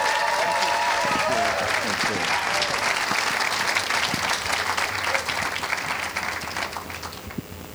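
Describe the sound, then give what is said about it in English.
Audience applause welcoming Lord Dr. Michael Hastings as a speaker: dense, loud clapping that holds steady for most of its length, then tapers slightly at the end. “So please join me in a hearty David Stent welcome for Lord Dr. Michael Hastings.”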